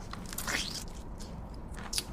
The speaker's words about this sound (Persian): میوه رو گاز میزنه